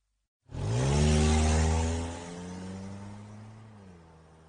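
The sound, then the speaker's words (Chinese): A car engine starts abruptly and roars into a loud, rich rev, then drops after about a second and a half into a quieter, steady idle hum that fades slightly toward the end. “片刻后，车子发动了”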